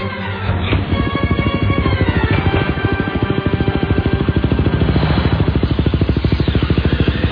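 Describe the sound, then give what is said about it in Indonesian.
An old motorcycle engine catches after a start attempt, then runs with a loud, steady, throbbing idle. Its rapid rhythmic pulses continue to the end. “Ayahku terus mencoba menyalakan motor tuanya sampai akhirnya, alhamdulillah.”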